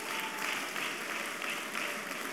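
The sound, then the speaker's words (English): Faint audience applause carries on as a steady, dense patter of many hand claps, with slight rhythmic swells but no break and no clear voices over it. “Please, better clap for that girl for us.”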